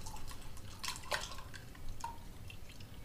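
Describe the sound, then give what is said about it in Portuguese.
A drink from a freshly opened bottle is poured into a glass: a faint liquid trickle with a few small, bright drips and splashes, quiet and without talk. “Agora abre. O outro. Esse é mais difícil. Abrir. Ah, agora sim. E pode despejar no copo.”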